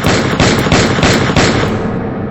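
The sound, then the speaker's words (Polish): Revolver gunshots fire in rapid succession, a string of loud, sharp cracks that run together into a dense roar before fading out at the end. “Oddaje w jego kierunku 7 strzałów.”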